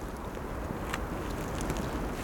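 Wind blowing through spruce trees at the summit of the Ventron: a steady, broad rushing hiss, fairly loud and unbroken throughout, with no voices.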